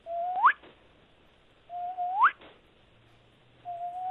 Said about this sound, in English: I've never heard this bird before back there, and I've heard a couple different from different positions. It sounds like this.